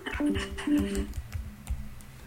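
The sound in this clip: Faint typing on a computer keyboard, a handful of soft, irregular key clicks spread across a couple of seconds with no talk over them.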